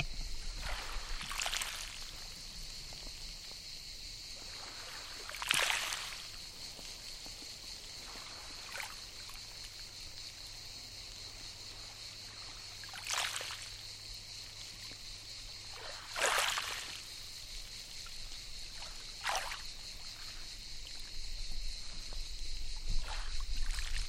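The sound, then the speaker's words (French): Small sea waves break on fine pebbles along a beach lined with a thin mat of stranded seaweed. Several quiet, soft washes arrive every few seconds over a faint hiss and a constant thin high tone. “Et la mer est là, qu'on entend, qui vient se briser sur les petits galets.”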